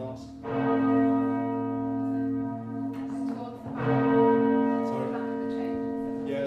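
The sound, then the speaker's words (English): Change ringing on the twelve cathedral bells of York Minster. Loud bell strikes ring out, and their deep sustained tones overlap in a long humming resonance, with fresh strikes arriving every second or so. “on the 12 bells we have here in the Peel at Yorkminster, you could possibly ring 479,001,600 different rows without ever repeating yourself.”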